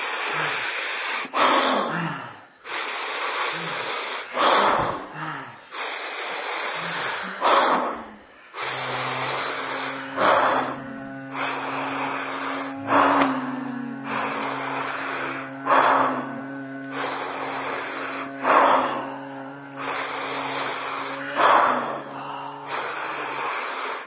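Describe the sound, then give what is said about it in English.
Loud, hissing breaths during a breathing exercise built on stacked inhales followed by a long exhale, coming in repeated airy bursts of varying length. A steady low hum sits underneath from partway through. “I put one inhale on top of the other, then exhale, right? So you're inviting a little extra stretch. You're inviting a little extra expansion.”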